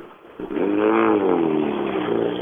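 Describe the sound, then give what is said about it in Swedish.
The engine of a Saab rally car revving at a rally in Blekinge, the only Saab in the competition. It bursts in abruptly, climbs sharply in pitch to a loud roar, then wavers and settles while holding a strong, steady drone. “Tävlingens enda Saab.”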